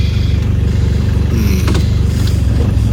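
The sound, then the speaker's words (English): A car engine rumbles steadily as the vehicle is parked in a three-point turn, with repeated shifts between drive and reverse; a continuous low drone with no sharp breaks. “A lot of going in and out of gears. Is that what that is? Oh, is that what that sound is? I think. Back and forth, drive, reverse.”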